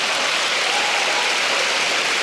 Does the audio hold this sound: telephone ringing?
no